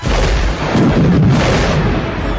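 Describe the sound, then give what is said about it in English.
Missile explosions from proximity-detonated missiles fired by fighter pilots, heard as a loud, dense, continuous roaring blast with a deep rumble and no clearly separate bangs. “a moment later, he was enveloped in fire and smoke. In his mind was a picture of the three explosions”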